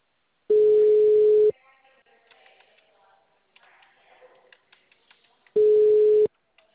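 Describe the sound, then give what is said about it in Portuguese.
Ringback tone of an outgoing call to a mobile phone: two steady, low one-second tones spaced about four seconds apart, with faint scattered background sounds between them. “Eu tô indo ligando pra mulher. Só preciso que ela atenda.”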